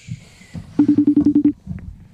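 Telephone button-press tones on a call-in line: seven short, evenly spaced beeps in quick succession, all at the same pitch, with faint low mumbling before and after.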